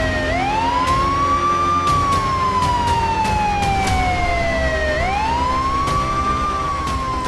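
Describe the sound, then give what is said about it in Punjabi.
Wailing sirens on vehicles speeding toward a raid. One loud, continuous tone climbs, sinks slowly over several seconds, then climbs again, with engine rumble beneath and no voices. “ਇਹ ਗੱਡੀਆਂ ਕਿੱਧਰ ਨੂੰ ਧੂੜਾ ਪੱਟਦੀਆਂ ਜਾ ਰਹੀਆਂ ਨੇ? Raid ਦੀ ਤਿਆਰੀ ਵਿੱਚ ਆ”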